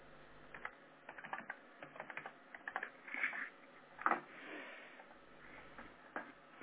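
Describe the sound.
Fingers type on a computer keyboard, producing many irregular, quick key clicks in a steady run with small bursts and brief pauses.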